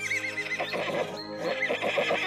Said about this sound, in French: Les trois animaux, Pongo le cochon, Tsuki le lapin géant et Sunny le mini cheval.